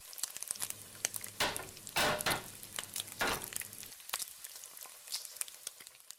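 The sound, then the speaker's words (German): Fried potatoes sizzling in a pan in a restaurant kitchen: a dense, crackling hiss with several louder spitting surges, then settling to a steadier, thinner sizzle. “Und so klingt es im Schillerhof, wenn Bratkartoffeln gebraten werden.”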